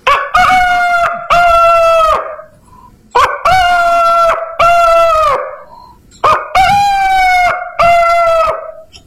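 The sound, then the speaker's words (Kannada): A rooster crows in the morning, three long loud cock-a-doodle-doo calls each rising then holding a strained high note, separated by short pauses, with no talk. “ಬೆಳಗ್ಗೆ ಏಳುವಾಗ ಒಂದು ಕೋಳಿ ಹುಂಜ ಈ ರೀತಿ ಕೂಗುತ್ತಿತ್ತು.”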